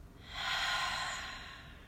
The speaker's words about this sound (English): One big inhale. One big exhale.